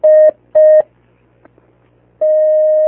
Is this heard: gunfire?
no

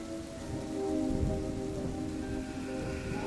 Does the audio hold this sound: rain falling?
yes

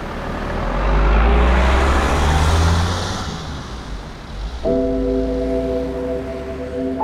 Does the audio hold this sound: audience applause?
no

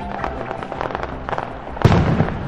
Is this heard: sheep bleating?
no

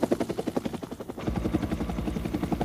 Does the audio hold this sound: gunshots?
no

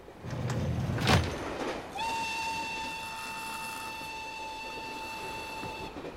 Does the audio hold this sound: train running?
yes

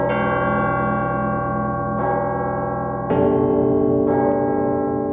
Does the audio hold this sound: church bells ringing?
yes

